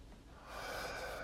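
A person takes a big, deep breath, one long and airy draw of air that swells in the second half. It is quiet and there is no talk.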